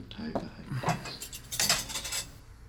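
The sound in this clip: Dishes and cutlery clink and clatter as a table is cleared after a meal, a few light, bright knocks of crockery and metal in quick succession, brief and moderately soft.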